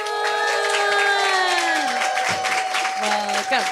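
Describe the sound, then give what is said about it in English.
Applause and cheering from an audience welcoming a local Seattle comedian onstage, a dense, continuous roar of clapping with sustained whooping tones running throughout. “Give it up for Clara Pluton.”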